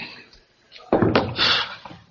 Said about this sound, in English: Door.